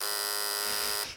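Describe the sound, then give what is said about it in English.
An electric buzzer sounds, the signal that the hosts are being too boring: one harsh, steady, high-pitched buzz held loud for about a second before it cuts off. “Okay, so when we hear that buzz, we're being too boring. We have to start over.”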